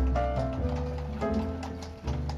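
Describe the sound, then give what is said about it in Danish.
Faint hoof clip-clops from a horse-drawn cart setting off to haul rubbish, a few soft, irregular knocks over a steady low hum. “Jeg sætter hestevognen i gang, og vi kører ud på fælden og får tømt alt skraldet af.”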